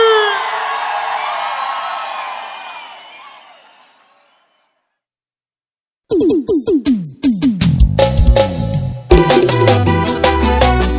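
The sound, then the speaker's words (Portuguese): Crowd cheering, whooping and shouting at a live sertanejo and forró concert in São Paulo, loud at first and then fading out. After a stretch of silence, rhythmic music with punchy percussion begins. “Faz barulho, São Paulo. Que gostou, faz barulho aí.”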